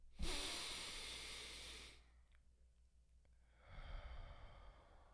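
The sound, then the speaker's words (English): A deep breath is drawn in through the nose and let out through the mouth: a long hissing inhale, a short quiet pause, then a softer, airy exhale, all fairly faint and with no talk. “let's get this deep breath in through the nose, out of the mouth”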